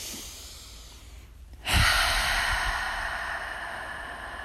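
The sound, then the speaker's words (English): A deep breath drawn during a spoken self-care affirmation, a soft airy inhalation that swells abruptly into a steady breathy hiss and eases slightly toward the end. “Take a deep breath.”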